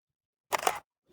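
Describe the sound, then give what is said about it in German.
A camera shutter snaps once as a photo of a path is taken on a walk, a single faint, short click in otherwise near silence. “Muss jetzt auch schnell noch ein Foto machen vom Weg, der”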